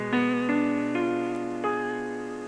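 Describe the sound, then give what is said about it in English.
A broken chord is played one note at a time: four notes enter in succession, each climbing higher, and the earlier notes keep ringing beneath the later ones as the sound slowly fades. “When a chord is broken up or played one note at a time, it is called a broken chord. A broken chord sounds like this.”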